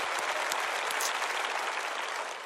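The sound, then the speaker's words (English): Audience applause at a gathering celebrating a school that has grown to 1,100 students, dense steady clapping from many hands holding at an even loud level throughout, fading slightly at the very end. “can we just clap and say thank you, Jesus”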